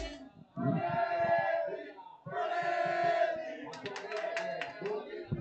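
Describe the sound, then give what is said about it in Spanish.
Atlético de Madrid supporters of the Peña Atlética de Torrejón de Ardoz chant loudly during a goalless match, with two sustained chanted phrases from many voices followed by rhythmic clapping and shouts. “Ojo a la afición, escuchen la afición que habla aquí la Peña Atlética.”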